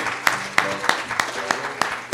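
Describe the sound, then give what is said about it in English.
Church audience clapping hands in praise: seven sharp, evenly spaced claps struck together at a steady, brisk beat over a faint, sustained tonal background. “Let's give the Lord another hand clap.”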